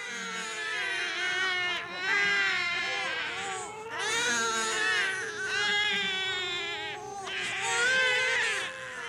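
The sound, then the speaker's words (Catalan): Small children cry inside a cave, several wailing voices overlapping, their cries rising and falling in repeated waves. “va sentir renou allà dintre. Escolta, i tot eren cris de fiats que feien.”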